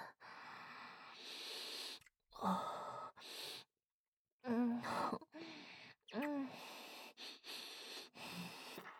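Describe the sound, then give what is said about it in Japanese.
Deep, breathy inhales through the nose, drawing in a foul smell, come in several long pulls separated by short pauses, with brief voiced sighs and grunts between them. The sound is faint throughout. “臭い匂いを深呼吸して吸い尽くしちゃいます。”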